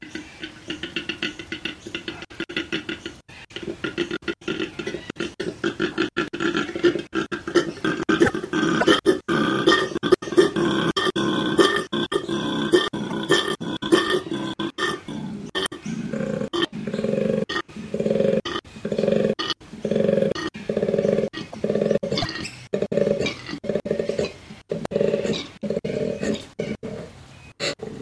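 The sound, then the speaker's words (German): Koala bellowing: a long sequence of deep, rasping, snoring grunts, first a rough continuous growl, then many rhythmic pulsing belches in steady succession, loud and alone. “Frau Stöger, das muss ein riesiges Raubtier sein, oder? Klingt zumindest so, nicht? Aber eigentlich ist es ein relativ kleines Tier. Es ist ein Koala.”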